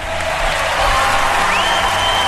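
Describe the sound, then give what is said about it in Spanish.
Applause for the mayor of San Felipe, a short, continuous hiss-like wash of clapping from a crowd that holds at a moderate, even level throughout. “La alcaldesa de San Felipe, doña Carmen Castillo, que la recibimos con un aplauso. Sí, señor. Aquí está el aplauso para la alcaldesa de Quito.”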